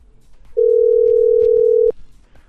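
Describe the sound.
Telephone tone of an outgoing call: one steady, loud, mid-pitched tone lasting just over a second, starting and stopping abruptly, with faint clicks around it.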